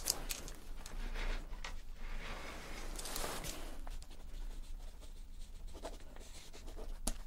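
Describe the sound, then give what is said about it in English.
A pen scratches as notes are written by hand during a mock medical check-up, with soft continuous strokes and brief pauses that stay quiet and close throughout. “So let me write that down.”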